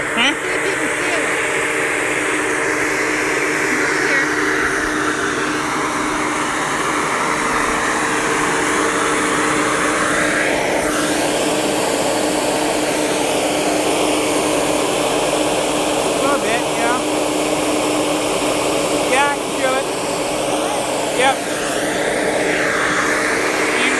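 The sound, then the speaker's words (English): Steady roaring whir of a snow machine's fan at Snowflake Valley on a cold night, a continuous broad blowing noise with no breaks, with voices faintly audible over it. “And over what you hear, that fan, that's the snow machine.”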